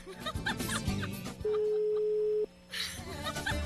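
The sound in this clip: A telephone ring tone on a call that goes unanswered: one steady, mid-pitched tone lasting about a second, with people talking and chattering before and after it.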